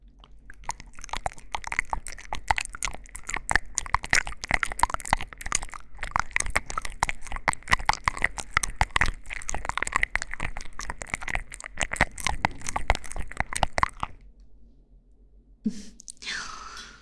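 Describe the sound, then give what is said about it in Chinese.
Someone chews and bites food with a rapid, crisp run of many crunches lasting about fourteen seconds. The crunching then stops abruptly, followed by a brief breathy sound near the end. “既然是你自己弄脏的，那你就给我吃下去，吃下去，快点。”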